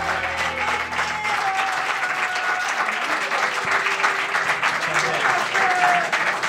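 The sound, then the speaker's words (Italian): Prolonged audience applause welcomes a returning guest artist. The clapping is dense and steady, with no break across the whole stretch. “Portato anche dei parenti, perché l'applauso è prolungato, in effetti.”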